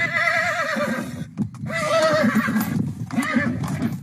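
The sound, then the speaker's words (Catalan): A horse neighs: a few loud, quavering whinnies with brief gaps between them, over a low rumble of hoof clops underneath. “Per exemple, el cavall renilla”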